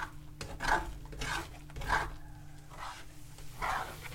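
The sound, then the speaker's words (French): An omelette is scraped and stirred in a cooking pan, with a few faint rhythmic scrapes rising and falling at regular intervals. “Une fois que ça, y a une bonne couche qui est cuite, mhm. on, racle tout quoi et on mélange tout.”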